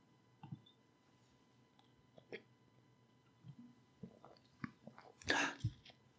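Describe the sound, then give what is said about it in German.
Someone sipping a drink while alone at a microphone: soft mouth clicks and a few faint wet sounds, then a louder gulping swallow near the end, with no talking. “Und wir kommen gleich zum großen Finale, nachdem ich einen Schluck getrunken habe.”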